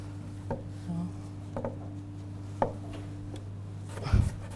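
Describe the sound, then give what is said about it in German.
A knife chops vegetables for a salad with a few faint, slow, unevenly spaced strokes over a low steady hum. “Du kannst jetzt auch vierteln, weil du das eine Stück so schmal geschnitten hast.”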